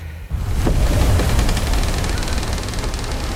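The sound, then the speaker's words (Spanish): A ship sinking at sea in a shipwreck: after a brief quiet start, a loud surge of rushing, roaring water noise breaks in and carries on as a heavy, steady wash. “Tripulación a cubierta. El barco se hunde.”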